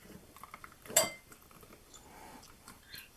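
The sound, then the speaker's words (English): A spoon scoops thick clumps of a mixture like peanut butter out of a container, giving one sharp metallic clink among faint scraping taps that are otherwise quiet. “You just want to be spooning like out clumps of it. It's like really thick peanut butter”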